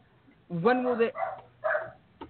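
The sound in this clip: Dogs barking in an online video, a few harsh, tonal barks in quick succession followed by a short, sharp yip at the end.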